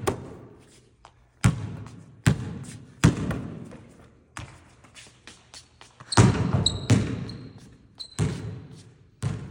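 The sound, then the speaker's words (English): A basketball bouncing on the court after a full-court shot, a series of loud, irregularly spaced thuds with quieter taps and rebounds in between. “But look, all my sins can be forgiven right here if I make this full court shot. So let's see what happens.”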